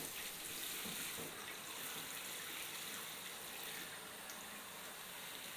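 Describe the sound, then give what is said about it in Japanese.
Lukewarm water runs steadily as it is poured over a person from the neck down to rinse them during a bath. The rush is even and continuous, fairly soft, with no talk. “わかりました。少しぬるくしますね。では、首の方から流します。”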